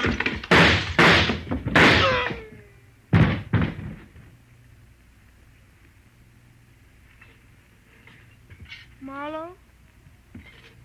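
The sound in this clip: Gunshots in a radio drama: several sharp, loud bangs in quick succession, then a pause and two more, followed by a long quiet stretch and a brief groaning voice.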